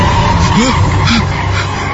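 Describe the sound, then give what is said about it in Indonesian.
Car wheels spin and skid as a car works its way out of a mud pit, a loud, steady rush of engine and tire noise with a few brief squealing tones rising and falling through it. “kedengar suara mobil. Ya, sepertinya mobilku sudah berhasil keluar dari kubangan.”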